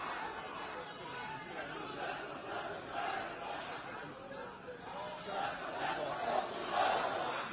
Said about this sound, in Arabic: هذه هتافات وهذه شعارات رفعها إخواننا الذين جاءوا من كل مكان، نحن فداك يا شيخنا الحبيب ونحن وراءك يا شيخنا الحبيب.